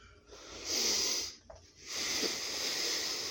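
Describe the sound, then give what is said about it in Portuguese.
Audible breathing from a person pausing mid-speech to catch their breath, with a few breathy, hissing inhalations separated by short quiet gaps and a faint click, and no talking. “Calma aí que eu vou parar pra respirar, velho.”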